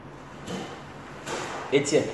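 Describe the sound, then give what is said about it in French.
A Bible being closed: a soft papery rustle followed by a couple of dull thumps, brief and fairly quiet. “Maintenant, on peut fermer la Bible.”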